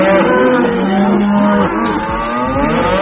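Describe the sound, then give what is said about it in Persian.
Cows mooing: a long, loud, drawn-out moo gives way to further deep lowing calls that bend in pitch, with no voices. “این بار دیگه صدای گاوا رو هم درآوردین. بفرمایید لطفاً اعتراض گاوا رو به سیاست‌های اقتصادی گوش کنید.”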